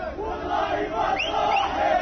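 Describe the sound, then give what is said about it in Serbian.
A small group of Moroccan football fans chanting and shouting in celebration before the World Cup in Qatar, with several voices swooping up and down in pitch over a steady crowd murmur. “Ovo što sada čujete, jedna grupica navijača iz Maroka.”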